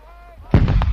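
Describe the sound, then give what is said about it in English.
GPMG machine gun firing in the sustained-fire role during weapons training: a sudden loud, sharp report with rumbling energy after it, following a voice talking just before. “That is the 84 anti-tank, the 60 millimeter mortar, the GPMG SF that you can hear in the background.”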